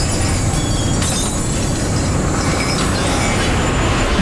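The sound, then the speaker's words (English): Loud, steady roar of a massive spaceship's thrusters as the craft drifts past a house: a dense, unbroken rumble with hissing highs and faint metallic whines. It stays constant throughout, with no voices. “Danny and Walter cover their ears at the noise and catch a glimpse of a massive spaceship drifting past the house.”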